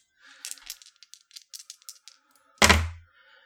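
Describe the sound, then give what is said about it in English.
Dice, including a six-sided die, are rolled for a tabletop role-playing game attack: a quick run of small, light clattering clicks, then one louder hard knock as they land. “I'm using these dice and I haven't even got them out yet. 1d6.”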